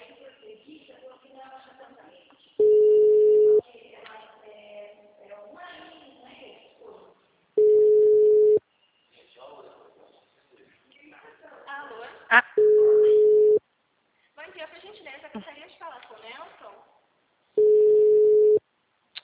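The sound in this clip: Telephone call tones while redialing: four long, steady, mid-pitched tones, evenly spaced about five seconds apart, with people talking between them.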